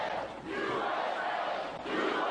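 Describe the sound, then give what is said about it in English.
A large crowd at a Trump rally at Mount Rushmore chants "USA" in a loud, rhythmic roar, the voices swelling and dipping slightly between repetitions. “President Trump and the country getting an enthusiastic reception from a very happy crowd.”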